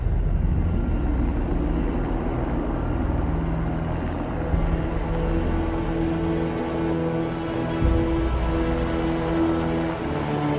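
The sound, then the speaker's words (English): A Falcon rocket launching with a Dragon crew capsule gives off a continuous deep, rumbling roar that stays loud and steady throughout, with no breaks or voices. “Go Dragon, go Falcon. Crew 6. Now launching on Endeavour's third flight to the International Space Station. Vehicles pitching downrange.”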